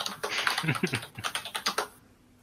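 Typing on a computer keyboard, a quick, uneven run of many clicking keystrokes that stops abruptly near the end, with no talk.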